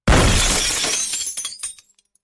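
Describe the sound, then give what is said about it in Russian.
A glass window shatters in one loud crash, then falling shards tinkle and scatter in a quick run of light clinks that fade to silence after about two seconds. “Стекло разлетелось на осколки.”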